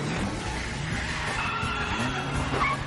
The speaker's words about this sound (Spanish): El todoterreno le golpea en la parte trasera.